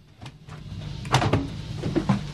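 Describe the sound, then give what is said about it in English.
Cupboard doors being opened in a kitchen during a search through papers, heard as a few short knocks and rattles of moderate loudness over a low steady background. “Opening cupboard doors”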